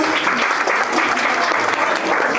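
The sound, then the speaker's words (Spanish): Applause fills the whole short stretch, a dense, even patter of clapping at steady loudness. “Nati Ceres es nuestra clienta del día 1 y la verdad se merece un aplauso y una bendición”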